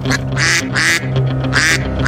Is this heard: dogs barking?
no